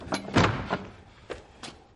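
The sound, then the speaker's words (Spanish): A bedroom door in a king's chamber opens with a few wooden clunks and thumps, the loudest near the start, followed by fainter knocks. No voices are heard. “El rey de High Hills abre la puerta de su alcoba e introduce al doctor en ella.”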